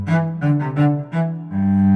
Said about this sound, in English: A cello is a string instrument, like a violin, and it sounds like this.